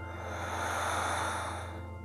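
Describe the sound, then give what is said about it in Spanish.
A long, slow breath is exhaled through the mouth during a guided breathing exercise: a soft, steady, breathy rush lasting about two seconds over a sustained tonal drone, with no talk. “Y vamos otra vez, inhala. Y suelta por tu boca.”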